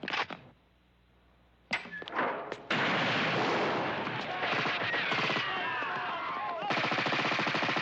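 Gunfire in a dubbed film scene: a couple of sharp, loud cracks, then a dense stretch of noisy blasts ending in rapid, evenly repeated shots.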